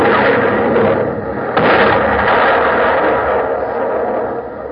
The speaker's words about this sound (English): Captain Matthews, we'll hoist all sail. She's running out of guns. If they catch us with a broadside, we're done for. Aye. Mr. Quinn, you may fire at will. Fire!